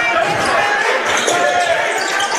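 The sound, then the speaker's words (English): Basketball being dribbled on a court during a game, a quick run of dull low thuds beneath loud, continuous crowd noise. “Trying to dribble between two defenders.”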